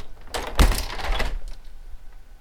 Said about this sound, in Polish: Otwieram, najpierw trzymając urządzenia w miarę blisko okna. I teraz zamykam.